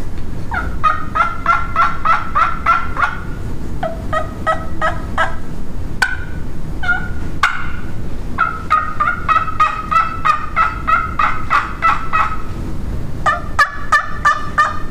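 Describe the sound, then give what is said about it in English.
Imitated turkey gobbles and yelps, made to sound like a flock: many rapid, loud runs of clucking notes in repeated series, some higher and some lower, with overlapping calls and no talk. “sounding like more than one turkey. And I mean, if you sound like a flock, you're a whole lot better off.”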